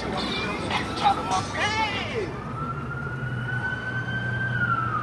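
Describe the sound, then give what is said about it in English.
Wailing emergency siren amid street noise on Los Angeles' Skid Row: a warbling sweep gives way to a long held tone over a constant low traffic rumble. “And down here, just outside this room, past a couple security guards, you'll hear a less harmonious sound, the streets of L.A.'s Skid Row.”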